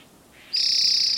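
A single bird call from a field recording: faint hiss gives way to one loud, sustained high-pitched note held steady for about half a second.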